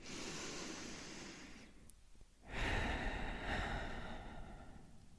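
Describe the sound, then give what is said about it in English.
A deep breath drawn in and let out, two long, soft, airy rushes of breath separated by a short pause, faint and with no talking. “start by taking a deep breath in and a deep breath out.”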